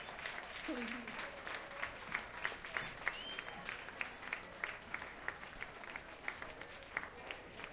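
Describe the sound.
Audience applause for a band at the Jyrock 2011 festival, faint and spread out, with claps settling into a steady, evenly spaced rhythmic beat.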